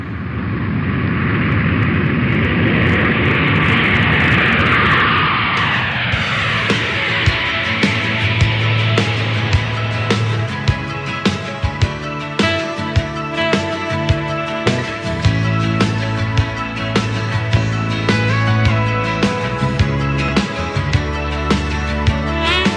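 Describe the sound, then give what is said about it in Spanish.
Jet roar of an Iberojet airliner taking off, a loud, broad rushing noise for about six seconds that gives way to music with a steady beat. “Qué bien se viaja en este avión de la compañía aérea Iberojet.”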